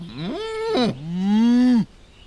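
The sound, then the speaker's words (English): A buffalo from a herd gives a loud bellowing moo in two drawn-out parts. The first part rises and wavers, and the second is long and steady before it cuts off. No other sounds. “After 2 days, the Sioux find the buffalo herd.”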